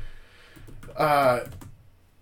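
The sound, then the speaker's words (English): Quick, light clicks of typing on a computer keyboard, soft and irregular, briefly interrupted by a person speaking in the middle. “maybe not. Maybe I'll just type.”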